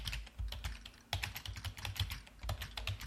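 Someone types a username on a computer keyboard, producing a quick, irregular run of many light key clicks with small pauses between bursts. The clicking is faint and there is no talk.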